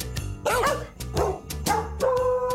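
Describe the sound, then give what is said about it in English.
Dogs barking and yipping in a musical novelty piece of dogs and cats singing together: several short, pitched barks and yelps over a steady, low musical backing, moderately loud throughout. “Yeah, this one has cats. Dogs and cats singing together. Just wait for the meows.”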